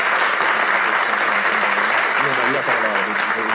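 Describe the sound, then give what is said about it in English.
An audience claps in dense, steady applause that runs throughout with no break, and a voice talks over it. “We got claps now. We got claps now for Kevin Warren, so shouts to him.”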